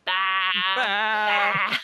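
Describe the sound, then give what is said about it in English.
A human voice imitating sheep bleating, part of a film song: one long, loud, nasal, wavering baa with a quivering tremolo, held almost without a break. “the sheep join in. I'll do it. Okay, so it's we're poor little lambs who've lost our way, and the sheep all go”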